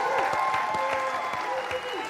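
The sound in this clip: Applause and cheering break out for the green team at a points-scoring game, a steady crackle of many hands with raised voices over it, holding level throughout.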